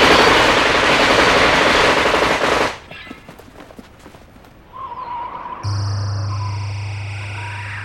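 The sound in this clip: Automatic gunfire shot through a window: a loud, dense, sustained burst of rapid shots, then scattered quieter cracks and rattles, followed by steady tones.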